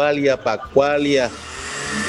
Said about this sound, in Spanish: Va parando. Una batidora ahí